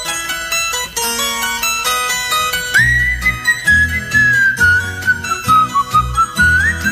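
A person whistles a tune while planting in mud. A high, slightly wavering whistled line is held through the second half, with other tonal sounds before it.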